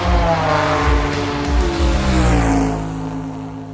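A car engine accelerating, a loud continuous roar rich in low harmonics that holds strong for about three seconds and then eases off slightly at the end, with no voices.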